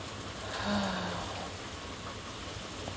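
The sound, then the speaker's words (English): Rain falls on a porch as a faint, steady hiss with no distinct drops standing out, continuous throughout. “Just sitting on my porch in the rain.”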